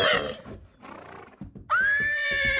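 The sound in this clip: A pony neighs in a Christmas advert: a loud, high, wavering whinny bursts in partway through after a muddled, quieter opening and holds strongly to the end.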